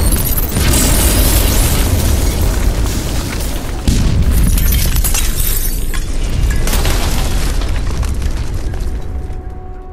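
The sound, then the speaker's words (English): A thermal detonator explodes with a loud, broad blast that rolls into a long, roaring rumble. A second surge of debris-like crashing comes partway through before the rumble slowly thins out. “"A thermal detonator," Earl says, as the droids begin to protest. Then, boom.”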